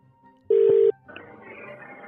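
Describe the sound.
A telephone ringing during a call to a sushi restaurant, heard as one steady tone burst followed by faint line hiss.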